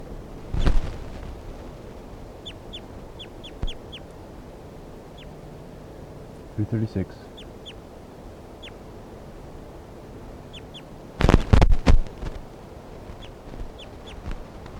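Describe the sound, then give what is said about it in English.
Bird calls come as light, high chirps in scattered short runs, mixed with a few louder rasping bursts. “Testing 1-2. This is bird 336.”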